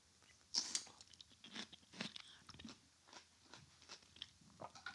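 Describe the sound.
Crisp bites and chewing of crunchy pickled watermelon, heard alone. A sharp first crunch is followed by a series of softer, irregular crunches and chews that stay fairly faint.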